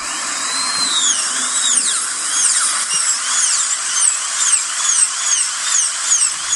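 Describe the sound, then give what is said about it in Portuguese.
A dentist's drill whines at a high pitch, running continuously with repeated swooping rises and falls in pitch as it works. “Pois é, gente, tá escutando esse barulho aí, muita gente já tá arrepiado com esse barulho. Aí entra a necessidade de fazermos visitas regulares ao dentista.”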